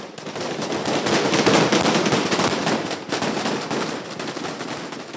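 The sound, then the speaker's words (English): Taliban security forces fire guns above the heads of protesting Afghan women to disperse them, producing a loud, dense and continuous crackle of rapid shots with no voices heard. “This rare show of defiance came to an abrupt halt when Taliban security forces opened fire above the women's heads to disperse them.”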